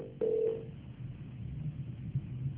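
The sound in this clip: A phone call on a radio call-in show disconnects: one short, steady mid-pitched beep cuts in, followed by muffled, narrow-band line hiss and low rumble.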